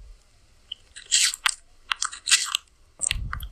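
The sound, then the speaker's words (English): A turtle bites and chews its food with crisp, crunchy snaps in irregular bursts, separated by brief quiet gaps, with a few duller low thuds near the end. “This fucking turtle is getting on that fucking ASMR wave. Listen to this shit.”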